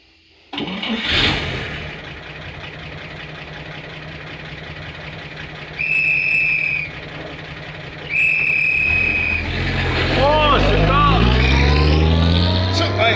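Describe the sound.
A car engine starts with a sharp burst, then idles steadily with two brief high whines, before revving up and pulling away as the engine note climbs toward the end.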